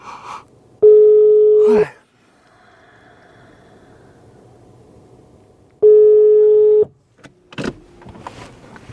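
Ringback tones from an outgoing phone call: two steady, mid-pitched tones about a second long each, separated by several seconds of quiet line hiss, with brief clicks and rustling near the end.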